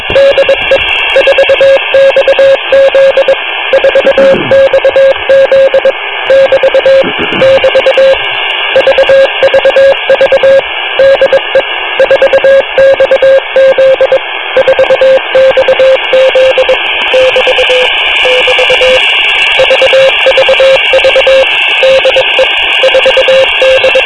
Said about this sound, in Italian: qua c'è un bellissimo morse sui 5160 kHz, quindi sui 5 MHz punto 160